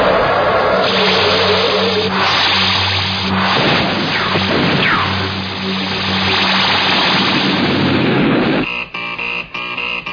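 Pulse weapon firing as a radio drama sound effect, a loud, sustained roaring whoosh with sweeping tones for about eight seconds, then a cut to a choppy, rapidly pulsing hum.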